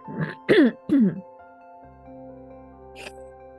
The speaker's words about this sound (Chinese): 好，我现在真的是咳嗽、擤鼻涕、咳痰样样来